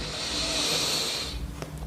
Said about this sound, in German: Wir nehmen diesen tiefen Atemzug und atmen ein